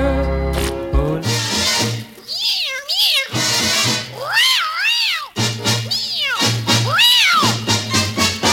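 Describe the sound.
A voice sings imitation cat meows over an instrumental backing, several drawn-out rising and falling meow phrases repeating in a loud, steady stretch.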